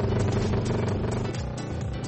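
Ice-racing motorcycles at full throttle on a frozen lake, fitted with special screw-studded tires for gripping the ice, produce a loud, continuous engine roar with a dense, steady harmonic drone and no pauses.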